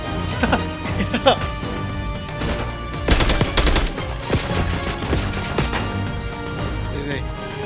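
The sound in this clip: Gunfire with bullets coming in from the right: repeated bursts of rapid, sharp shots, loudest around the middle, with people talking over the shooting.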